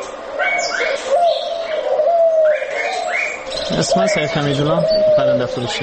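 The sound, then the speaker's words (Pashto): Turtle doves cooing in small four-cornered cages at a bird market street in Kabul, among other caged birds. Repeated soft, low coos mix with brighter chirps, under a voice speaking. “د کابل د کافروشي په کوڅه کې د نورو مرغانو تر څنګ په آرتو آرتو څلور کونجه قفسونو کې د قمریګانو نارې هم تر غوږ کیږي.”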